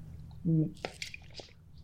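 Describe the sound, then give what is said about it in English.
Sipping and swallowing drinking water by someone dehydrated after running, a short voiced sound followed by a few soft, wet gulps and faint liquid clicks. “Sorry, I need to drink some water. I'm like dehydrated.”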